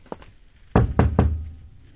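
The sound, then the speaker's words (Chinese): Knocking on a door: three firm, loud knocks in an even rhythm, preceded by one faint, softer tap. “你敲门。”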